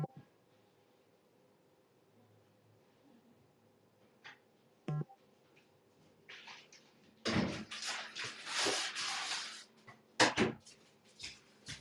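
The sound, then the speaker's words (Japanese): A door closes in a rental property: faint scattered clicks and a brief rattle, then a longer stretch of rustling and scraping, ending in a couple of sharp knocks. The sound is quiet overall with no voices. “このドアを閉める時の音で、ここの物件だって分かるとかないよね。”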